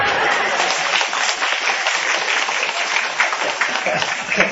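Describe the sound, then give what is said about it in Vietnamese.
Audience applause at a Buddhist retreat talk, a dense continuous patter of many hands lasting several seconds, with some voices mixed into the clapping. “Hay quá, vỗ tay.”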